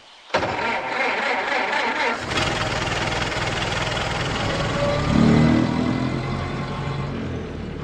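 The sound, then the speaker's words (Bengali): A car engine starts in an audio drama, a sound effect for a nobleman's car. A sharp crank catches into a loud, steady running rumble that swells louder partway through and keeps going. “বেলা এগারোটার সময় বোমকেশ কুমার বাহাদুরের গাড়িতে বেরিয়ে গেল”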